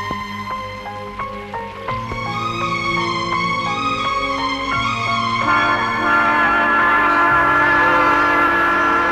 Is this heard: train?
yes